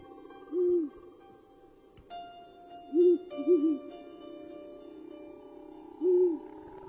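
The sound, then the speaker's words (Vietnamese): An owl hoots on the roof of a house, low, mellow calls spaced out, with the middle ones coming close together, each clear and alone. “bỗng nhiên có tiếng cú nó rúc lên từng hồi từng hồi.”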